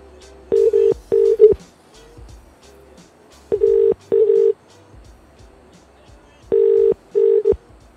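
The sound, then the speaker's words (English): UK telephone ringback tone on an outgoing call: three pairs of short, steady double rings, each pair separated by a longer silence, with a faint hum in the gaps. “This is a UK call. We might be banned. Oh, fuck, no, it's ringing.”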